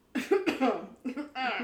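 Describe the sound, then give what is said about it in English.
Coughing after choking on one's own spit: several harsh, voiced coughs and throat clearings come in two quick clusters with a short pause between them, fairly loud. “excuse me. I think Jesus just tried to strike me down because I choked on my own spit.”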